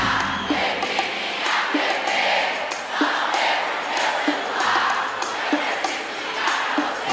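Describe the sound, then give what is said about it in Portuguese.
A concert audience cheers and makes noise during a live show being filmed for a DVD: a continuous crowd roar with regular rhythmic accents recurring every second or so, with no clear single voice. “Quem gostou faz barulho, vamos puxar essa de novo pra gente filmar pro nosso DVD.”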